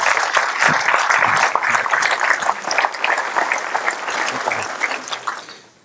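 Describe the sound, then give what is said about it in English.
Audience applause for a field staff member, a dense, steady wash of many clapping hands that holds at full loudness for several seconds before fading at the very end. “Guys, put your hands together for our field staff”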